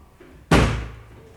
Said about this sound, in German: Der letzte Schrank? Ja, Sir. Gott sei Dank. Wir kippen ihn.